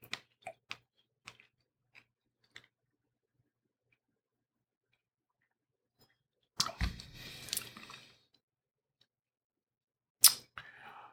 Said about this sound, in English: This is a juicy strawberry, too.